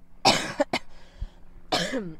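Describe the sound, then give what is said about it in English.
A person coughs up mucus in a few short, harsh bursts close together, followed after a brief pause by a rougher, drawn-out cough or throat clearing. “Excuse me, I have mucus coming up.”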